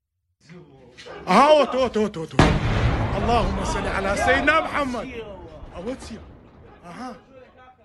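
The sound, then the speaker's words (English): Missiles fired and striking in an Iranian barrage near a U.S. consulate complex in the Kurdish region of northern Iraq: heavy booming blasts and a loud rushing burst, with excited voices shouting and talking throughout. “Iran is openly firing missiles into this area, and they are targeting places where American consulates are. Here is a little bit of the video.”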